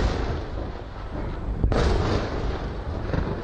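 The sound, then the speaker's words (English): Missile interceptions exploding over the city of Haifa: a loud, sustained rumbling roar with a single sharp crack partway through, and no voices. “The Israeli military says it's intercepted all the missiles and no casualties were reported. This was the sound over the Israeli city of Haifa.”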